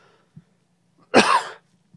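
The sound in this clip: A single throat clear from someone with something caught in the throat: one rough, husky burst lasting under half a second, alone apart from a couple of faint short sounds before and after.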